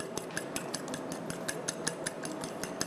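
Eggs and seasoning being beaten in a bowl make a quick, steady run of light clinking strikes as the utensil hits the bowl, fairly faint and with no talking.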